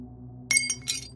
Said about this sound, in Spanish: El vaso de whisky se resbaló de los dedos y se estrelló contra el suelo.